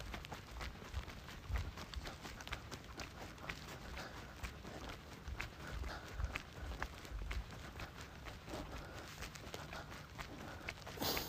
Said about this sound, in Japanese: この階段登ろう。